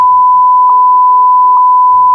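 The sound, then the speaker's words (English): A long, steady beep: one continuous pure tone held loud and unbroken for the full two seconds, with only a faint low rumble beneath. “So it's a nice long beep to welcome everybody back.”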